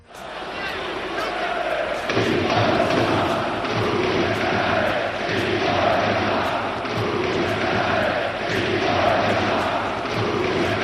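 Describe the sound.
Arena crowd at a Barcelona–Real Madrid basketball game chanting insults at a player in the last quarter after an offensive foul, a loud, sustained many-voiced roar that swells in after a quieter start, with regular thumping beats underneath.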